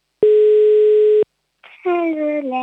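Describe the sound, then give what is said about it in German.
A single steady telephone tone lasting about a second as a call to Tirol is placed, followed by a voice speaking. “So, was hältst du davon, wenn wir mal in Tirol anrufen? Die Nummer wählt gerade. Ich hoffe, es hebt auch jemand ab.”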